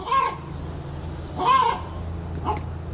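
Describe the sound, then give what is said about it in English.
A chicken clucks in three short, throaty calls spaced about a second apart, each moderately loud over a low steady background hum. “I got a chicken over here that is about to drive me nuts.”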